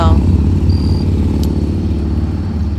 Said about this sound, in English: that's why you're hearing motorcycles and stuff